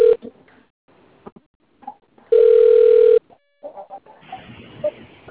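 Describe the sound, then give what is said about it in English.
A malfunctioning phone lets out a loud, steady telephone tone that holds for nearly a second, set among fainter, intermittent clicks and line noises. “I don't know if that was my phone or your phone acting crazy.”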